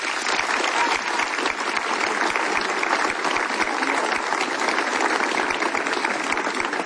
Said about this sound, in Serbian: a to je meritalo jedan veli aplauz se, sveh vas.